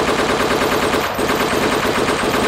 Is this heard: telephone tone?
no